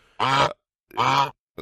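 Goose honks, two long, harsh, nasal honks separated by a pause, then a third honk that is cut short, loud and alone with no talk.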